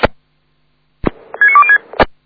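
Pager call tones are sent to summon a local emergency unit. Sharp, clipped radio bursts frame a short sequence of steady electronic beeps that step between a few pitches.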